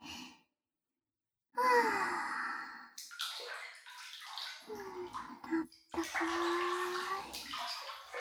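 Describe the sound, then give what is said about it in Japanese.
Hot bath water sloshing and overflowing as two people get into a tub together, with splashy washes and drips under long, relaxed vocal sighs. “さすがに二人一緒に入ったから、お湯が溢れ出ちゃったね。”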